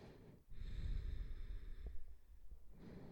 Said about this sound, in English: Couple massive inhales here, couple of massive exhales here. Keep it going.